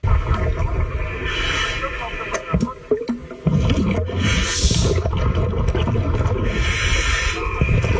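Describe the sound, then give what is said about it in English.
A diver breathing underwater through scuba gear in a shark tank: a dense, muffled rumble broken by two hissing bursts of exhaled bubbles. “That's the sound of me underwater breathing.”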